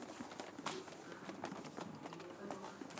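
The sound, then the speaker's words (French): Several people walk about, their footsteps landing as soft, irregular thuds while voices talk over them. “Alors, marchez un peu pour voir.”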